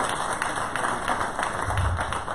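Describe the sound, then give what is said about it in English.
A Sunday-morning church audience claps in praise of Jesus. The clapping is steady and continuous, with an even, busy texture of many hands throughout. “Can we just give Jesus a hand clap of praise this morning?”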